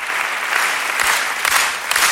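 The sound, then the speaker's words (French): Applause from an audience at a French comedy show welcoming a performer: dense clapping from many hands that runs without pause, swelling slightly in a few brief surges. “Bonsoir, on applaudit Robert.”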